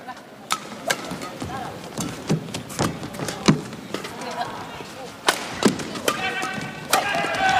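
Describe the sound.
Table tennis serve and return in a match: crisp taps of the ball striking paddle and table in an irregular series of sharp clicks, with a commentator's voice over them.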